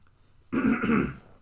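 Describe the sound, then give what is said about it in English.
A person clears their throat once: a short, rough, gravelly burst lasting under a second, alone with no speech around it. “sorry guys, I drank Diet Mountain Dew before the podcast, so it's making me clear my throat”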